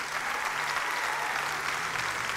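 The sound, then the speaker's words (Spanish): Applause from a church audience during a Spanish-language sermon: a steady, dense wash of clapping that holds throughout without a break. “no, si vas a aplaudir.”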